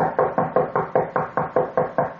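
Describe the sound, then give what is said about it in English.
Knuckles rap steadily on a door in a fast, even series of many sharp knocks, each one a crisp hit that fades quickly before the next. “Just like that. Well, I kept knocking on the door.”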